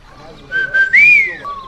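A man's long whistle of amazement: short whistled notes lead into a drawn-out tone that rises and then falls away, sounding clearly on its own with no talk.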